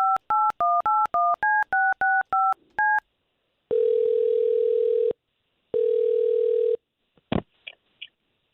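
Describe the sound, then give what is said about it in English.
Touch-tone telephone dialing a number: a quick run of short keypad beeps at shifting pitches, then two long steady ringing tones, ending in a sharp click and brief rattle. “We're going to call her right now and we'll talk to her first.”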